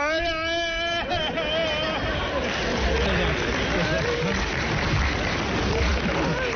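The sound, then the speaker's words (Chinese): A man's voice imitates the loud wailing cry of a mourner bursting in at a relative's funeral: a sustained, harmonic-rich wail lasting about a second, then dense, noisy vocal sound for the rest. “就像北京那个男人那哭法啊，亲戚死个老头进门就嚷，”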